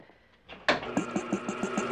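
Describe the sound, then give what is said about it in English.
A water pump on a washing unit starts with a sudden jolt, then settles into a rapid, even chugging pulse that runs steadily to the end. “Throw the washing in and I'll start the water pump.”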